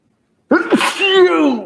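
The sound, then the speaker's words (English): After a moment of silence comes a single loud, sudden sneeze into the elbow, a sharp burst with a voiced, drawn-out tail. “God bless you. That was good, you know, coverage and everything. It was perfect. Right in the elbow. Right in the elbow.”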